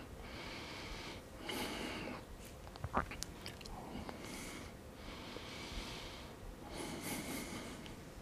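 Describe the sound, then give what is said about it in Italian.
Breathing in and out during a floor exercise routine with a ball. Three faint, airy breaths come at a slow, steady pace, with a few soft clicks between them. “inspiro, espiro. Inspiro.”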